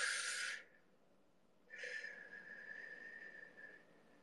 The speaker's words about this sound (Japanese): はい、深呼吸です。